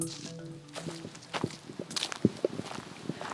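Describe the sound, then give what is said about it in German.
Footsteps in a forest tread over sticks, stones, sand and mud on ground wet from recent rain, giving many irregular crunching steps with a few sharper snapping cracks. “Ich laufe über Stock und über Stein. Ganz viel Sand und auch ein bisschen Matsch, weil es anscheinend die letzten Tage hier geregnet hat”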